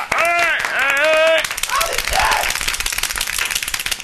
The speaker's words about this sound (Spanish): Segundo anuncio, palmetas.